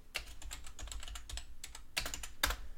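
Typing on a computer keyboard, with a steady, faint clatter of many quick keystrokes and a few heavier key hits standing out near the end.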